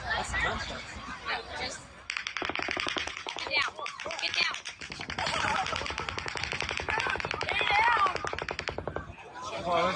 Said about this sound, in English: how rapid fire that is, how many bullets just were fired there alone. There's the clip.